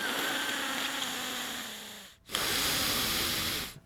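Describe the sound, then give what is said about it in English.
Unhealthy-sounding breathing through the nasal air passage: two long, hissing breaths with a buzzy, wheezing tone, separated by a brief silent gap. “and breathe. Listen to the sound of that air passage. It's not healthy.”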